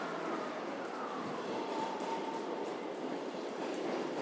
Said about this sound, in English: And there is a train here. I presume it's the right one.